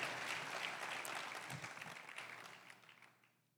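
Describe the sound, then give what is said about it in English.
An audience at a bilingual sermon gives a round of applause: a dense, steady wash of clapping that holds strong and then thins and fades out over the last half second. “And give him a round of applause.”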